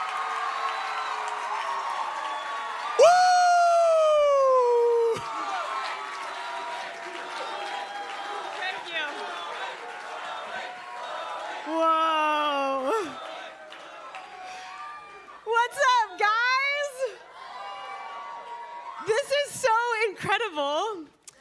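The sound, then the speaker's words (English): A worship audience gives a standing ovation to welcome a guest artist and preacher, with shrill whoops and shouted cheers rising and falling over a continuous crowd roar and scattered applause. “So can we give like a crazy standing ovation worship welcome to Chloe Mack?”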